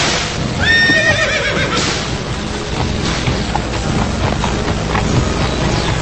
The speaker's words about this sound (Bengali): আগন্তুক তার ঘোড়ার গাড়ি ছুটিয়ে চলে যেতে